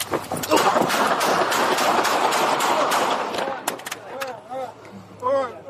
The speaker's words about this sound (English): B41, shots fired.